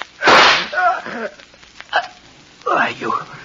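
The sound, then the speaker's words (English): A single sharp gunshot in a radio drama bursts out loudly near the start, followed by tense voices speaking. “You shot me. The gun wasn't empty.”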